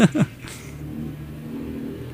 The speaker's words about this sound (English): Wow. That's a big truck.